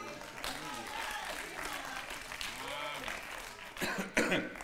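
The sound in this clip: A person coughs and clears their throat, with a couple of rough, harsh bursts near the end after a stretch of ongoing speech.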